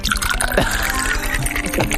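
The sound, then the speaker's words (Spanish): A drink poured from a bottle, with liquid splashing and gurgling into a glass over busy, cluttered background noise. “Me voy a servir yo uno sí, contigo. Sí, échate uno.”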